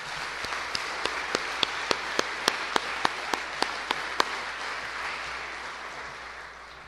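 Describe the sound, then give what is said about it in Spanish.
Faint applause from an audience during a Catholic sermon, a soft even wash of clapping with a steady run of sharp single claps standing out over the first few seconds before it settles. “Un aplauso al Papa Francisco.”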